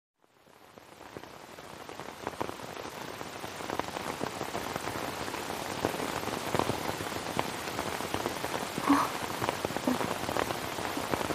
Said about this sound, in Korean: 아이들을 불러보았지만 새참 빗소리에 목소리가 묻혔다.